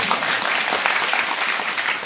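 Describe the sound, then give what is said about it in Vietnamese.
An audience applauding on cue during a comedic stage sketch. Brisk, dense clapping from many hands continues loud and unbroken throughout. “Quý vị vỗ tay đi.”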